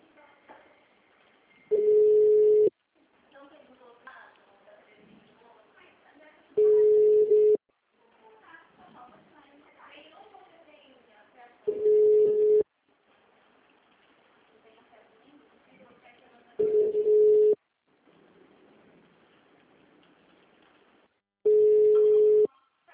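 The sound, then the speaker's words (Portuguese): Telephone busy-line tone: five steady, low beeps, each about a second long and spaced several seconds apart, with faint muffled voices and line noise in the gaps between them. “Chamada sobre ocupado.”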